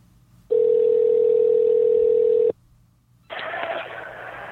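A telephone call rings while waiting for it to be answered or go to voicemail: one steady, even-pitched ring tone lasting about two seconds, then a pause and a burst of rough, noisy line sound.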